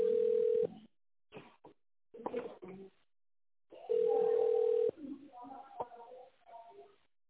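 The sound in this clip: Telephone ringback tone on a line: two long, steady, mid-pitched tones about three seconds apart, with talk and other brief sounds between them.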